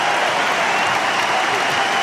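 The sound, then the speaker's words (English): Crowd applause rings out on Court Suzanne Lenglen at a tennis match as a player walks off court, a dense, even wash of clapping at a steady loud level for the whole stretch. “And huge round of applause for Cerundolo as he walks off court, and that's deserved.”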